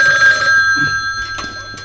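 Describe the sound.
A telephone rings with an incoming call, giving a steady, high-pitched electronic ring that sounds alone without any voices.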